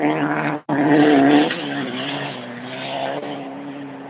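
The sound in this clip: Loud, continuous engine roar from a 9-3 race car driven hard in a timed race, with strong torque under heavy acceleration. The sound drops out briefly near the start, then holds a dense, steady howl to the end.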